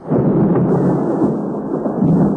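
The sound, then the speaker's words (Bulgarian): Loud, continuous thunder rolls through stormy weather with sleet, a deep, broad rumble that swells and holds steady for the whole stretch without any voices. “Нека гърми, дявол, да го вземе! Грамотевица!”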